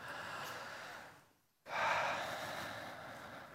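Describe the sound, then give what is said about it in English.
A group of people taking a big, deep breath together: a long, breathy rush, then a brief hush, then a sudden louder rush of air that slowly tapers off, with no talking. “I want all of us as a group to take a big, deep breath together”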